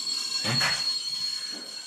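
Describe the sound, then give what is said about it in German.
Train wheels squeal as a train arrives, a thin, high, steady whine over a soft rumble, with a broader rush of noise in the middle and a fainter one near the end. “Ah, das ist unser Stevie, der reist immer mit dem Zug an.”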